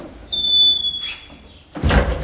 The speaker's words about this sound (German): Er zückt den Schlüssel und schließt eine Tür in der zweiten Etage des Podelwitzer Schlosses auf.